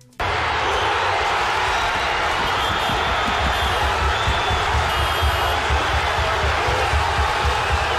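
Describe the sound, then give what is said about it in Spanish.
A crowd celebrates in Paris streets after a football championship win, a sustained, noisy roar that stays loud and fairly even from start to end. “este es el sonido de fondo de los festejos, pero también del caos que se vivió, de la violencia tras la consagración del París Saint-Germain”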